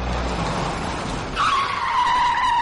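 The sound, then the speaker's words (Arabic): A car brakes hard while a mechanic tests the brakes, its expensive tyres skidding into a loud, long, high squeal that cuts in midway over rumbling road and engine noise and holds steady to the end. “اتبوظ الكاوتش وكاوتش غالي لمن دول. بجرب الفرامل يا عم متولي، بجرب الفرامل”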